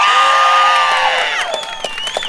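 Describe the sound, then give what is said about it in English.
A crowd at an activist rally cheers and whoops with loud, sustained, high-pitched shouts that ease off slightly, and scattered claps join toward the end. “You've already been doing such a good job of cheering”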